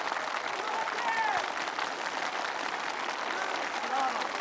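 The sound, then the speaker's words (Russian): Applause from a crowd greeting returning polar explorers at a festive welcome, with press cameras flashing: steady, dense clapping that continues throughout, with a few faint whistle-like tones above it. “Раздались аплодисменты”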